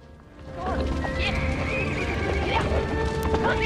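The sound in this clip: Horses neigh and whinny in high, wavering calls as hooves clip-clop, from horses being released through opened doors. The sound swells after a quieter start and stays loud and busy to the end.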